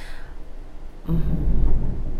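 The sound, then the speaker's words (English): Thunder at the start of a lightning storm: after a quieter moment, a deep, heavy rumble breaks in about a second in and keeps rolling, low and loud, to the end. “No, it's just starting to lightning and thunder out.”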